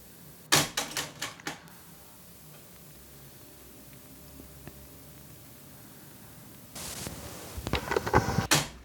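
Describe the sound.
A Technics RS-T330R cassette deck switches tape sides on auto-reverse, giving a quick cluster of sharp mechanical clicks and clunks, a stretch of faint tape hiss, then another busier burst of clicks.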